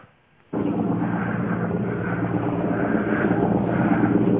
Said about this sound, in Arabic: القاء برامي متفجرة على احياء درع البلد